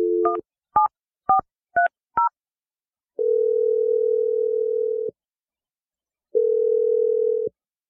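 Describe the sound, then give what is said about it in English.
Telephone dialing a number: five short touch-tone beeps in quick succession, then two long, steady ringing tones separated by a pause, with no voices. “I'm going to call Kelly's number right now.”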